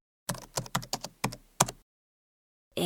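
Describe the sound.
Someone types an email on a computer keyboard: a short run of crisp, clattering keystrokes in uneven bursts, then silence.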